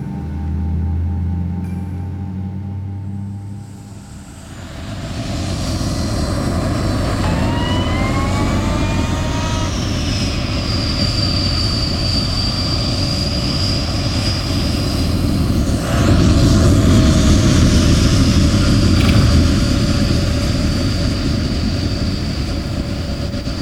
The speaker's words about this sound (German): Der Pilot hat das Zeichen zum Anschnallen gegeben. Wir landen.